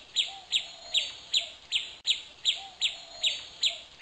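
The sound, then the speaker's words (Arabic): Chirping from a small injured sparrow with a wounded foot: short, high-pitched chirps repeated steadily, roughly two per second, in an even series with no voices. “حقا إنه يتألم، مسكين هذا العصفور الصغير، إنه يتألم.”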